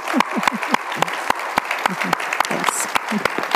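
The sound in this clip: An audience applauds to welcome a guest: distinct, sharp claps at a fairly steady pace, with people talking underneath.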